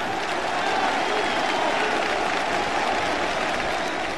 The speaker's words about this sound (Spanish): Yo solo por la explicación, yo le doy un aplauso.